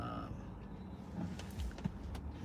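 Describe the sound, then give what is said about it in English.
Steady low road rumble from a car being driven in Texas, a continuous even drone with a few faint brief ticks over it and no speech. “Yeah, I'm driving now. I can only read the comments when I'm at a stoplight.”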